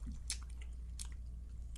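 Sticky chewing of a taffy-like candy with hints of coconut during a mukbang eating session. Quiet, wet squishes and a few sharper mouth clicks sit over a low steady hum.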